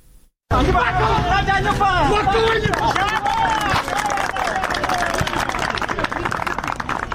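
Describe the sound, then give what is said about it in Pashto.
Villagers clap and murmur at a volleyball match in Sayed Abad district, Maidan Wardak; after a brief quiet moment a crowd babble rises, with scattered hand claps growing busier in the latter half. “د کلیوالو په چکچکو بدرګا د والیبال دا سیالي د میدان وردګو ولایت په سید آباد ولسوالۍ کې د سپین چنارونو په مینځ کې ترسره کیږي”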